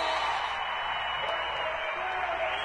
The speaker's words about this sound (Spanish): ¡A Big One! ¡Un aplauso grande!